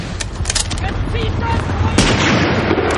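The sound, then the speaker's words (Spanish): Gunfire in a World War II village battle, including a scoped rifle fired from atop a church bell tower: a loud, sharp report cuts through dense, continuous battle noise of shots and blasts. “Desde lo alto del campanario, Jackson dispara su fusil de mira telescópica.”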